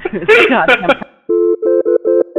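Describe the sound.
Telephone tones while someone uses the phone: after a brief stretch of talking, a few short, steady electronic beeps with a buzzy, harmonic tone repeat in quick pulses with small gaps.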